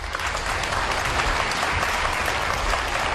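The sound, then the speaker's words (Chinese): Audience applause on a comedy stage as a performer is welcomed up: dense, steady clapping from a crowd, loud and continuous throughout with no pauses or talk. “掌声鼓励，掌声啊，掌声鼓励！”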